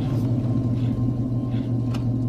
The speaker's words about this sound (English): The car pursues him slowly. It's a gold Oldsmobile Toronado.